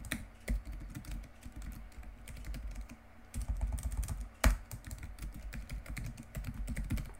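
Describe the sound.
Quiet typing on a computer keyboard: a steady run of many soft key clicks with an uneven rhythm and a brief pause midway, then the tapping resumes with some louder keystrokes.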